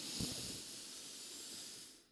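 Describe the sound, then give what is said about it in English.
A deep inhale through the nose during a guided breathing exercise: one long, steady airy hiss lasting about two seconds before tapering off at the end. “why won't we take a deep breath together? So, you know how powerful one single breath can be. Let's inhale deeply through the nose.”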